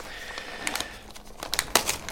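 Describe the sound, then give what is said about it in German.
Wrapping paper crinkles as a birthday gift is unwrapped, with faint, irregular rustling and scattered sharper crackling bursts. “Soll ich das Geschenk auch auspacken? Sehr gerne, ja.”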